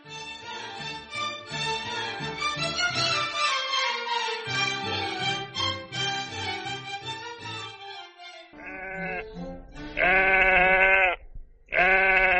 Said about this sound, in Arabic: يا أختي ما خلاص عرفنا إن الست تفيدة اشترت خروف، ناقص يجيبوا له ميكروفون ويعلقوا في رقبته جلاكي ولا رابطينه في ترابزين السلم